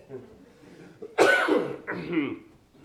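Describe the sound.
Coughing and throat clearing right after choking, with two loud, rough bursts, the first longer and stronger, following a quieter murmur.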